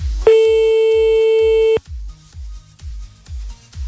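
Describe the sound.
Telephone line sounds while redialing someone who hung up: a steady, loud tone lasting over a second, then a series of short, regular pulses like a busy signal.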